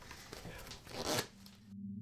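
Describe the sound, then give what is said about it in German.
A deck of playing cards is shuffled for a card trick, a quick, faint papery riffling that builds to a brief burst and then stops, followed by a steady low hum. “Dazu habe ich hier ein Päckchen Spielkarten. Und ich mache es mal auf und wenn Sie bitte das Spiel jetzt mischen würden.”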